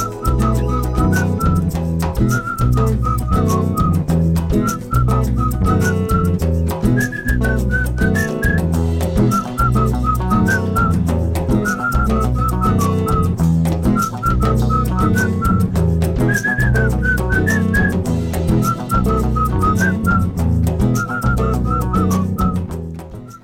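A person whistles a melody over a full band accompaniment of steady bass and percussion. The bright whistled phrases repeat continuously and stay loud throughout.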